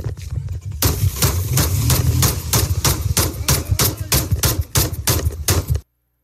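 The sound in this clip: Gunshots fired by a young sheriff's deputy: many loud, sharp cracks in rapid succession, a dense volley lasting several seconds before stopping abruptly into silence.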